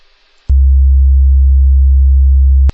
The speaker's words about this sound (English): Here's what one of the tones sound like. It's a 67 hertz tone.